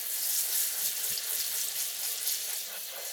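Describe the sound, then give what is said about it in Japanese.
Water runs steadily while rinsing hair at a salon shampoo basin, a constant bright hiss and splash with no voices over it. “十分に色をつけてからじゃないと、うまくシャンプーができないので、このままじっくりと流していきますね。”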